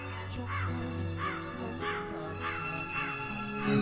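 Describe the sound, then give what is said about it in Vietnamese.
Crow caws ring out in a steady series of about six harsh calls, evenly spaced, over a constant low sustained tone. “một cánh quạ đen bay vọt lên, kêu lên những tiếng thê thiết.”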